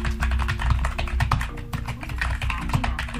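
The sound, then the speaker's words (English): Typing an email on a computer keyboard: many rapid, irregular key clicks in a continuous run, with a faint steady hum underneath. “All right, so I'm going to type in my email.”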